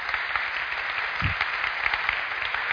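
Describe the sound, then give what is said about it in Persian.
Applause from a church audience welcoming two guests, a steady, dense wash of clapping that holds at an even level throughout. “یه دست براشون بزنید.”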